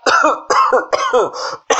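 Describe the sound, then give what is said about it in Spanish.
A voice acts out a wasp character coughing: a run of several hoarse, voiced coughs in quick, uneven succession, loud and alone with no speech. “Allí, después de un tiempo, Avispado tosió.”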